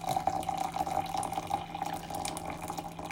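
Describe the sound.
Hot water pours steadily while being measured out, a continuous liquid rush and trickle with a faint ringing tone running through it.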